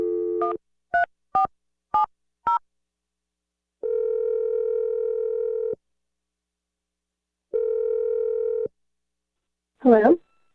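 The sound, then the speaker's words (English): A telephone number is dialed in five quick two-tone beeps, then two long, even ringing tones sound, and a brief voice answers at the end. “Okay, here we go. I'm going to dial the number.”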